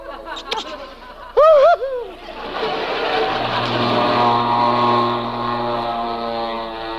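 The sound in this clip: An airplane engine sound effect builds into a steady, droning hum with strong tonal harmonics that swells gradually, preceded by a brief shouted voice.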